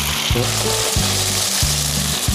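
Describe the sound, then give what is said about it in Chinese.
Beef slices sizzle and crackle loudly as they are stir-fried in hot oil in a wok. A steady, dense frying hiss carries throughout, broken by a few regular knocks and scrapes from stirring. “好，我们另外再烧油，开始滑牛肉，叫热锅温油，把滑散”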